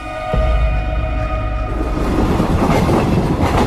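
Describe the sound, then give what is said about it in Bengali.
A train rushes along its tracks toward Bareilly, a loud, continuous rumble of wheels and carriages with rattling clatter that starts abruptly and keeps rolling steadily throughout. “Train ছুটে চলেছে বরেলির দিকে”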